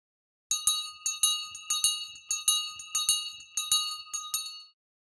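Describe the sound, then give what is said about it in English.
A bell rings to signal a school break, sounding as many bright, evenly spaced strikes. Each strike leaves a sustained metallic ring, and no voices are heard. “You can hear a bell ringing to tell you when it is time for a break from your schoolwork.”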